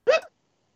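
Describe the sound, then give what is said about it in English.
A single short hiccup pops out, a quick voiced jolt with a sharp onset that fades within a fraction of a second, then silence. “Don't make fun of my hiccups.”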